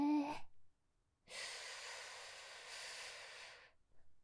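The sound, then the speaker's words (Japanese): A deep inhale during a breathing exercise with both arms raised: a brief spoken word, a pause, then one long, smooth breath drawn in for over two seconds, ending in faint breathy sounds. “さあ、今度は両手を上げて一緒に深呼吸だぞ。いくぞ。吸って”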